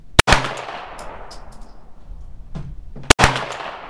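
Two sharp gunshots from a Glock pistol, about three seconds apart, each a loud crack followed by a decaying tail, with faint clicks in the gap.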